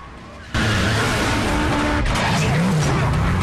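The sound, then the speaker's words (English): A Camaro skids onto a dirt verge and lurches to a halt. A loud roar of engine and tyre noise bursts in about half a second in and continues unbroken to the end. “The Camaro skids onto the dirt verge and lurches to a halt.”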